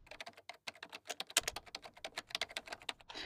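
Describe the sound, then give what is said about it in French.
Fast typing on a computer keyboard, with many quick, light key clicks in an uneven, busy patter, heard alone and fairly quiet. “j'étais à fond en train d'écrire et là je vais faire une petite pause euh, sur l'écran et sur l'ordi”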